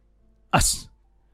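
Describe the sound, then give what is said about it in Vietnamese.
A single sneeze from a person sitting down, one sharp, loud burst lasting well under half a second against near silence. “đang ngồi bỗng nhiên hắt xì hơi”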